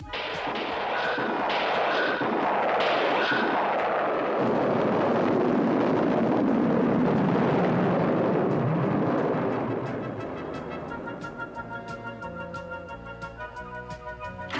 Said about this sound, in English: All systems go! Ignition.